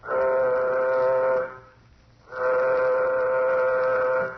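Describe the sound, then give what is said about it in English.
A warning signal sounds aboard a nuclear-jet craft preparing for takeoff: two long, steady, droning horn blasts of about a second and a half each, separated by a short pause. “Sound warning signal. Sound warning signal.”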